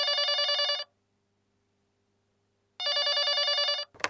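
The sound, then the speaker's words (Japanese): A telephone bell rings in two loud, even bursts separated by a long silence, with a brief clatter right after the second ring. “夫のキャンプ仲間のその奥さんから誘いの電話があったのは、夫が亡くなって2ヶ月ほど経った頃だった。”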